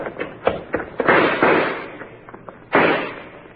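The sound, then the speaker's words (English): Gunshots are fired as covering fire toward a loading platform: several sharp cracks in quick succession with decaying tails, then a final loud shot after a short pause. “Cover me with some shots. That'll keep their heads down.”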